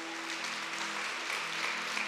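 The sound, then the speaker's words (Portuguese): A church audience stands and applauds the Lord in a continuous wash of dense clapping. The clapping stays even in loudness throughout, with a faint steady low hum underneath. “Fique em pé e aplauda o Senhor.”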